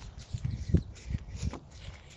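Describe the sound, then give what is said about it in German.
Rhythmic footsteps of someone running in place with knees raised during a workout in a shady spot on a warm day. Soft, regular thuds repeat steadily, with no voices. “Auf der Stelle laufen und in zwei Sekunden geht's los. Und Knie heben, Knie nach oben”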